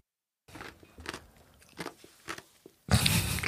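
Crunching ice from a Chilcano, a Peruvian cocktail made with pisco, being chewed: several separate crisp bites, then a louder, sustained grinding crunch at the end.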